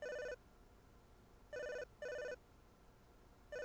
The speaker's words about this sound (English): Looks like we're getting an in-studio call to call in cell phone.